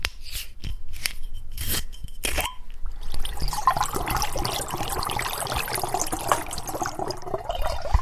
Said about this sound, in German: erstmal den Saft aus der Flasche in den Gärbehälter.